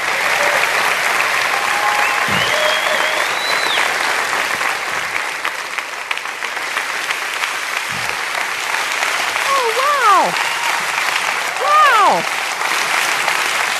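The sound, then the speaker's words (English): Sustained audience applause welcoming a guest speaker at a ministry event, dense and even throughout, with a few cheering whoops rising above the clapping near the end. “Guys, and I am certain that a lot of that applause was for my husband of 35 years.”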